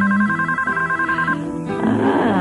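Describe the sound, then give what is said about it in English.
A telephone ringing in a BellSouth caller ID commercial, an electronic warbling ring of stacked tones that stays loud and continuous throughout. “Now I can even tell you who's calling no matter where they live in the country. So I can decide whether I want to pick up the phone or not.”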